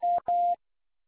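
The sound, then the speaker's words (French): Two short, steady electronic beeps from an answering machine signal the start of recording. The second beep is slightly longer than the first, and silence follows. “C'est à vous après le bip.”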